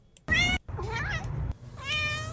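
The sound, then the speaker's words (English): A person imitates a cat, voicing three nasal meows in quick succession. The middle one is longer, with a wavering, bending pitch. “meow meow meow meow meow meow meow meow meow meow meow meow meow meow meow. Translation: you're listening to WCBN FM Ann Arbor.”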